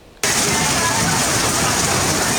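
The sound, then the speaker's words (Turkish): Thunderstorm downpour in Erdek, Balıkesir: dense, loud rain hiss that starts abruptly after a brief quiet moment and continues as an even roar, with no distinct thunder. “Balıkesir'in Erdek ilçesinde etkili olan gök gürültülü sağanak hayatı olumsuz etkiledi.”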